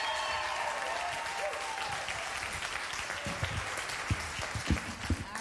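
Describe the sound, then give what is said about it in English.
Audience applause welcoming a speaker to the stage, a steady wash of clapping that thins toward the end into a few louder, scattered individual claps. “So put your hands together and welcome Allie Lankford.”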